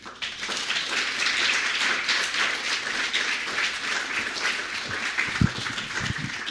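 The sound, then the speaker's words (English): An audience applauds while welcoming a lecturer, with dense, steady clapping that holds throughout and a few louder individual claps near the end. “Yeah, I think we should be clapping. Definitely.”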